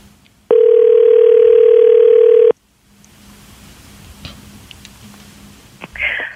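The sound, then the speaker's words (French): A telephone dial tone sounds as a call is placed: one steady, loud tone holds for about two seconds, then cuts off abruptly into faint line noise. “Alors, on appelle la légendaire Nancy Vaillancourt.”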